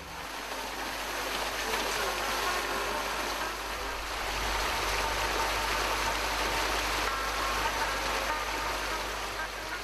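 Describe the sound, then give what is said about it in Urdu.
Fountains shoot strong jets of water upward, making a loud, continuous rushing and splashing roar that stays steady throughout. “ان فواروں سے پانی کا تیز ریلا کافی شور شرابے کے ساتھ اوپر کی طرف اچھلتا ہے۔”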